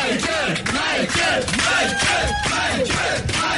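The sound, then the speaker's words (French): Fans give an ovation at a concert, with loud, continuous cheering and yelling from a big crowd. Surges of shouting pulse steadily through the whole stretch. “alors que là, il y a toujours l'ovation, bien sûr, de ses fans qui sont venus nombreux de la France entière, de l'Europe entière.”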